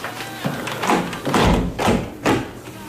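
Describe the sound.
A window being shut with a few dull knocks and sliding thuds spread over about three seconds, moderately loud, with no talk.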